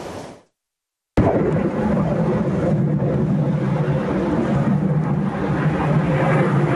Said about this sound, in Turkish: Yalova'da eğitim uçuşu yapan bir F-16 düştü. O ana dair görüntüler de ekranlarınıza geliyor.